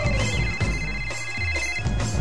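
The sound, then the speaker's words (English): Telephone ringing on an outgoing call: a fast, pulsing electronic ring that repeats steadily and fairly loudly through the whole short stretch. “Let's call her. It's ringing!”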